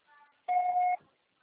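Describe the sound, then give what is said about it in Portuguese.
A mobile carrier's voicemail beep: one steady, clear electronic tone lasting about half a second, heard alone against near silence. “Grave seu recado, que o seu só será tarifado após o sinal.”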